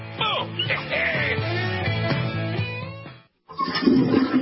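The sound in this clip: A toilet flushing: a loud, rushing gush of water runs for about three seconds, then cuts off into a short silence before another burst of sound.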